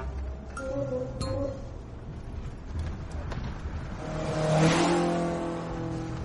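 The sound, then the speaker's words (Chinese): An oddly shaped car speeds past a truck, its engine roaring: a steady motor drone swells into a louder rush toward the end, then eases off, with a few faint clinks early on. “就在这时，一辆外形奇特的车子从卡车旁边飞驰而过，经过时，那车子的引擎轰鸣声掀起了一波波声浪”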